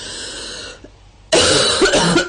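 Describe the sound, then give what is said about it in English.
A woman coughs repeatedly in loud, harsh bursts. A short quiet pause separates a longer, forceful fit of coughing from the sounds before it. “She coughed quite a few times.”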